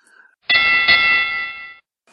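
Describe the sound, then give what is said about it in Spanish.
A starting bell rings to open a battle: one bright metallic ding whose clear ringing tone holds steady for over a second, then cuts off. “Parece que la batalla ya va a comenzar. Están a punto de sonar la campana de salida.”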